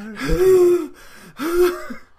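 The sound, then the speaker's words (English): A person imitates the exhausted, wheezing breath of a worn-out wrestler just after a match, with two loud, strained gasping wheezes separated by a short pause. “can hear him wheezing”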